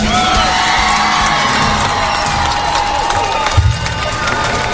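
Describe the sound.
A studio audience cheers, a loud, sustained crowd roar with whoops and shouts rising over it, staying dense throughout.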